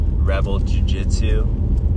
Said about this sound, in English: I'm recording this right now on my way to work. It's 1:30 p.m. I'm driving to my jiu-jitsu school,